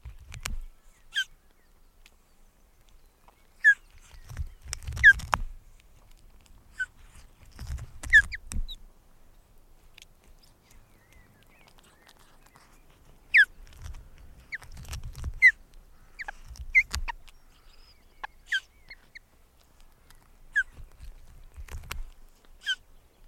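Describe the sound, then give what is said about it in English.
Thin, high begging peeps of tiny chicks in a nest at a drizzly dawn as a parent feeds them morsels of old fish: scattered short squeaks over a few soft, low rumbling bursts. “I was up at 3 and getting some nice recordings, as Mum found an old bit of fish in the nest and fed tiny morsels to each begging chick.”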